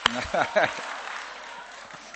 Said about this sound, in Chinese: 人这底下 鼓掌啊， 一人就鼓三下儿啊